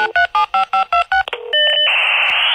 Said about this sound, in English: dial the internet sound most of our kids will never have heard.